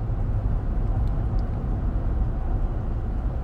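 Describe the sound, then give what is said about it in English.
Steady low road rumble from inside a car driving down the road, a continuous dense hum without distinct events. “I'm recording this podcast as I'm driving down the road. I never do that.”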